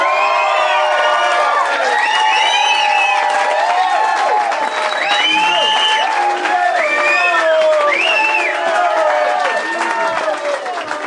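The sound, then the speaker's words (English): A comedy-gig audience loudly cheering and whooping to welcome a comedian, with clapping underneath, one dense, sustained roar of many voices throughout. “And what I'd like you all to do is give him a very warm welcome. Be nice to him and please put your hands together and go absolutely wild.”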